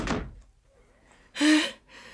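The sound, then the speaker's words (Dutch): A door is opened and then shut, heard as two short, faint bursts: a soft thud at the start and a louder, brief burst about a second later, with no talk. “En open die deur en doei!”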